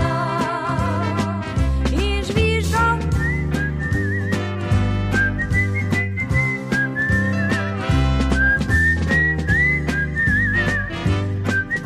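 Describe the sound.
A man whistles a little tune, a clear, steady melody with wavering held notes, carried over rhythmic instrumental accompaniment that runs throughout without pause.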